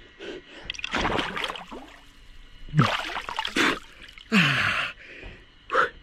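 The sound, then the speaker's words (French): Water splashes and pours as a person dips their face into cold water, with sharp gasps and snorting breaths around several loud bursts. “Allez, vous voyez, on reste pas très très longtemps, c'est pas, on n'est pas là pour faire des records. Petit plongeon, juste pour se rafraîchir le visage.”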